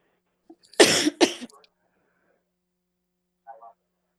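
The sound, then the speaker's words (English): Two quick, harsh coughs come close together, each a rough burst of breath. A brief faint sound follows after a pause. “Sorry, I got a bit of a cough.”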